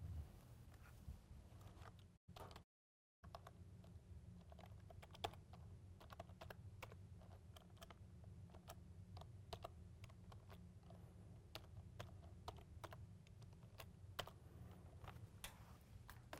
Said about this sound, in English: So I'm going to go ahead and type in the admin password and get into the settings app.